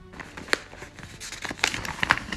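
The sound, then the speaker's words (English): A paper envelope is opened, with a few sharp crinkles and tearing crackles at irregular moments over soft rustling, with no voices. “Just opening up my fake envelope.”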